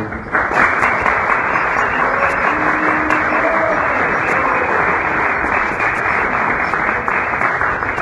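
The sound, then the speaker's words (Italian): Sustained audience applause at a gathering welcoming a visiting master, a dense, steady clatter of many hands clapping, loud and unbroken throughout. “Facciamo un applauso di...”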